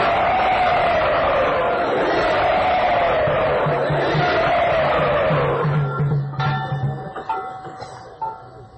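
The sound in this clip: Loud audience cheering and whooping welcomes a speaker at a Vaishnava gathering. It holds steady for about six seconds, then thins into scattered, fading sounds.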